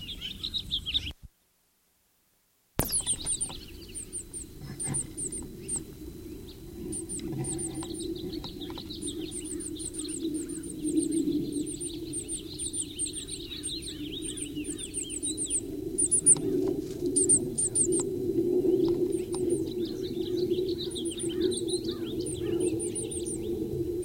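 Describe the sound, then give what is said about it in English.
A bird calls in a pasture, repeating short high chirps in quick series over a low rumbling wind-like background. The sound cuts out briefly near the start, then the chirping continues steadily and grows busier toward the end. “Still a Blomquist pasture bird.”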